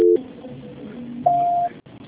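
A telephone call transfer tone on a phone line: a short low tone, then after a pause a longer, higher steady beep, with faint line hiss and a brief dropout near the end.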